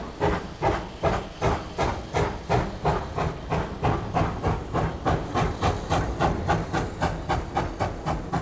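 Steam locomotive chuffing used as a sound effect on a rock record: many steady, evenly spaced steam bursts with hiss, moderately loud and unaccompanied, keeping a brisk, regular rhythm throughout.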